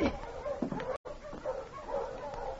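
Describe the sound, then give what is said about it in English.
Sled dogs bark and yip as a dog team approaches, a lively mix of short barks and whining yelps with several sharp bursts, broken by one brief silent gap. “Someone's coming. That's a dog team.”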